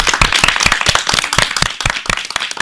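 Loud applause from a group of people: many sharp, overlapping claps that continue steadily through the whole stretch without a break.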